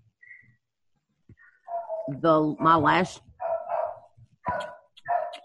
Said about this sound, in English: I'm sorry, do I need to shut that door? The dog's bothering you.